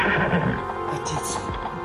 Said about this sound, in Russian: Лошадь горячая.